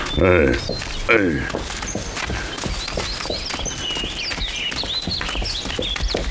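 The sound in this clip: Horse hooves clip-clopping as a horse is led uphill on a mountain path, with a regular rhythm of hoof strikes running throughout under talk.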